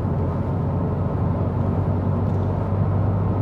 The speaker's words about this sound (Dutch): En ik rij nu de snelweg op.